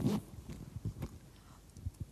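A purse found on the ground is opened: a faint, brief zipper-like rasp and soft rustling clicks, quiet and close, with no voices.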